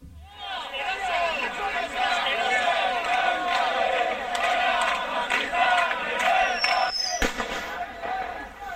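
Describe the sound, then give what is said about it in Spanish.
Riot crowd at a protest on a university campus where police fired tear gas and blanks: a dense, continuous roar of shouting voices, with one sharp bang near the end. “Y este es el sonido de los disturbios que se producían con la convocatoria del agitador ultra en el campus Navarro.”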